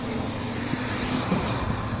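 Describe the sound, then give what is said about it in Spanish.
Steady traffic rumble of buses carrying deportees pulling away under escort by National Guard patrol cars, a continuous low, broad roar without clear separate events. “Escoltados por patrullas, dos patrullas al menos de la Guardia Nacional, elementos del Instituto Nacional de Migración, y así parten”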